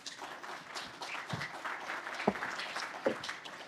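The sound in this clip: A seminar audience applauds to welcome a speaker. The applause is faint and thin, with a few sharper claps standing out from a soft patter.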